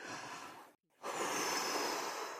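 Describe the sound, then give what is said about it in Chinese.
A deep breath: a broad, airy rush of breath, a brief silence, then a longer and fuller breath sound, loud and alone. “so take a deep breath 表示深呼吸，就像这样。”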